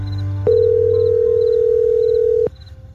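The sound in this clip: A telephone ringing tone on an outgoing call: one steady, loud, mid-pitched tone holds for about two seconds and then stops, with a faint high beeping repeating in the background.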